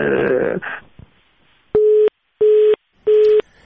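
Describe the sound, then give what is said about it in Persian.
Busy tone after a listener's phone call is cut off during a live call-in, heard as three short, steady, mid-pitched beeps at an even pace following a brief burst of voice and some faint noise. “باز هم متاسفانه که تماس آقای مدبر قطع شد.”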